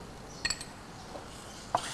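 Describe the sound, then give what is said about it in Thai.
Curry paste stir-fried with coconut cream in a pan gives a faint, steady sizzling hiss. A few light clinks of a utensil against the pan break through it. “น้ำพริกแกงผัดกับหัวกะทิเล็กน้อยนะคะใส่น้ำพริกแกงลงไปผัด”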